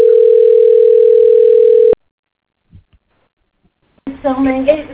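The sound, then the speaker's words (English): A steady, unbroken telephone tone plays while a call is transferred, then stops suddenly. A couple of faint clicks follow, and then a voice starts talking. “Wait while I transfer your call.”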